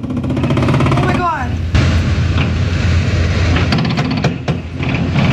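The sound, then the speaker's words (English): Rapid gunfire from 9mm handguns fitted with trigger switches rings out on the streets of Savannah during a teen takeover, with several sharp, loud cracks in quick succession, mostly in the second half, over a busy wash of crowd noise and voices. “Those are full-blown, what are they called, trigger switches. Yeah. So they got 9mm or handguns or whatever gun they got with these trigger switches”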